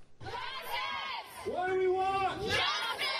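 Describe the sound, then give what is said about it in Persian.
Protesters gather in front of the US Supreme Court after a ruling on Trump's travel ban, their raised voices blending into a loud, sustained crowd of shouting and chanting with overlapping tones. “این اعتراض کنندگان دقایق پس از آن در جلو ستر محکمه ایالات متحده تجمع کردند”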